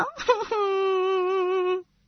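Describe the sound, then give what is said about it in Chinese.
A voice imitates a little elephant crying. A short, wavering sob leads into one long, sustained wail at a steady pitch that cuts off abruptly. “谁知小象一咧嘴，哭了”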